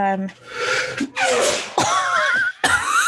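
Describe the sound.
A man sneezes once, a sharp burst that stands out among several people talking.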